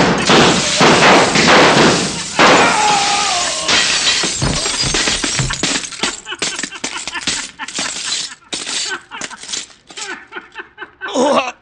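Mirrors shatter under gunfire, opening with dense, loud crashes of breaking glass, then thinning into many scattered tinkles, clinks and thuds of falling fragments.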